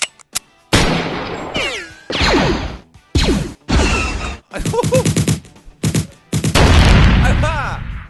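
Gunfire from many weapons fired at once: dense, loud bursts of shots, blasts and swooshing whooshes in rapid succession, with brief gaps between volleys.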